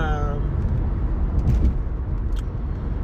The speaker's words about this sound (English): I'm sorry, y'all, because I'm driving.